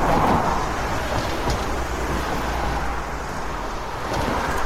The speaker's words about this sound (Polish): Droga POW jest naprawdę w kiepskim stanie i słychać to w momencie, gdy przejeżdżają samochody.